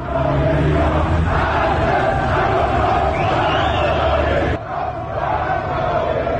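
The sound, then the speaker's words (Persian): Protesters chant anti-government slogans during night protests in Malard, Alborz province. Many voices shout together in a loud, steady, rhythmic chant that continues throughout. “در ویدیوهای منتشر شده از اعتراضات شبانه در ملارد در استان البرز هم شعارهای ضد حکومتی از سوی معترضان شنیده می شود.”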